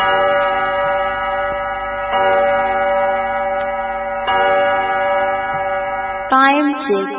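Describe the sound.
Studio clock time signal marking 7 pm: three similar sustained, bell-like chime tones rich in overtones, followed by a brighter, different final tone.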